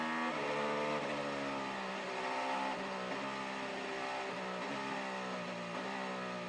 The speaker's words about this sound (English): And now we get the pro cars coming in.